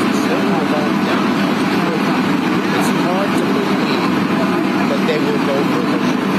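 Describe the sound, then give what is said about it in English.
Loud, steady background roar outside an airport, a dense engine-like rumble and hiss that never lets up, with talk mixed faintly into the noise. “Again, it's outside of like an airport, so it's kind of loud.”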